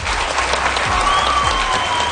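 Audience applause for students after a question session at a high school, a thick, continuous patter of many hands at steady loudness, without talk.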